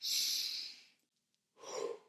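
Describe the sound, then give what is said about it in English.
Two breath sounds of a deep breath separated by a short silence: a long airy hiss first, then a softer, lower rush of air, with no talk. “I want you to do one thing in that moment, and that is to take a deep effing breath”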